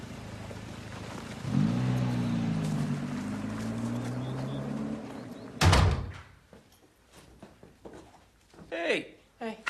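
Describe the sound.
A car's driver's-side door shuts with one solid thud after a low rumbling hum, and people talk afterward.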